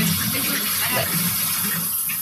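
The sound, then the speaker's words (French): Water runs in a steady, loud, unbroken hissing rush for the whole stretch, with no clear pauses or changes. “On va quand même faire couler un petit peu la flotte.”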